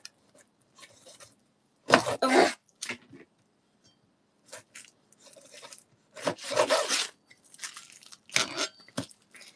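A kitchen knife cuts into an avocado covered in plastic wrap, producing irregular bursts of rasping, crunchy scraping strokes separated by quiet pauses.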